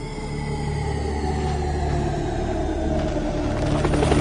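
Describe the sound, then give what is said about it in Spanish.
A squadron of helicopters flies maneuvers in formation, giving a steady, throbbing rotor and engine drone with a continuous low rumble that swells slightly louder toward the end, with no voices. “Mientras un escuadrón de helicópteros realiza maniobras”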